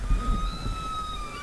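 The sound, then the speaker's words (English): Wild whales vocalizing: long, sustained tonal calls drawn out at a steady pitch, with a slight glide near the end, over a low rumbling background. “What are they saying? So that's just wild whales.”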